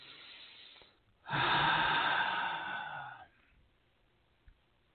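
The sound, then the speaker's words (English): A single big, deep breath taken during a guided relaxation with eyes closed: one long, loud, airy inhale of about two seconds, rising abruptly out of quiet and cutting off cleanly, with no talking. “And everyone, close your eyes. Take a big, deep breath.”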